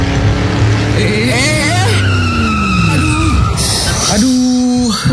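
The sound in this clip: A car speeding on a toll road, its tires squealing loudly in long, wavering, gliding tones over a rough engine roar that continues throughout.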